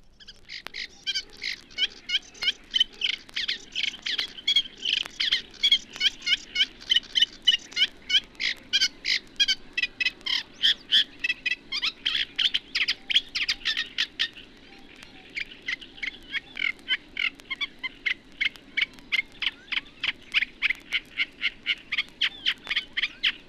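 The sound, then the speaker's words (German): Song of a Eurasian reed warbler, a small water bird of Central Europe: a long, fairly high series of rapid, rhythmically repeated chattering notes, delivered steadily with one brief pause midway and no voices. “Wie im Aussehen, so auch im Gesang ist der Teichrohrsänger dem Drosselrohrsänger sehr ähnlich. Seiner geringen Größe gemäß ist auch seine Stimmlage leiser und höher.”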